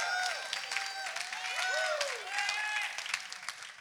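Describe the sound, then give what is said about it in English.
A church audience applauding, a steady, dense wash of clapping with a few whooping cheers over it throughout. “Can you throw your hands together and welcome our online church podcast family? Come on, let them know you love them.”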